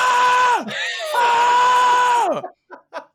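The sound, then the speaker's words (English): A man's voice imitates men screaming at the gym: two long, strained, high-pitched cries, each held steady and then sliding down in pitch, followed by a few short breathy bursts. “I'll be on a machine, and then I'll just start hearing screaming. Like, screaming. Not just like yelling like, oh, like, woo! No, I'm hearing like,”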